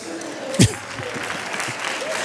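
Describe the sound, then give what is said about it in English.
An audience at a stand-up comedy show applauds with steady, moderate clapping throughout, broken by one brief louder knock early on. “Now, don't clap. No, watch this. Well, you can. I guess it's okay”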